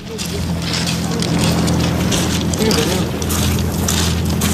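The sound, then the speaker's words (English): A small boat's engine hums steadily as migrants step off onto a beach near Dover, with continuous wind noise over the low, even drone. “that is the sound of migrants stepping off a boat onto a beach near Dover after Border Force failed to intercept them”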